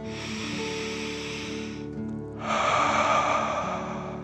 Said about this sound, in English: Last one, fill up your belly, deep breath in and out.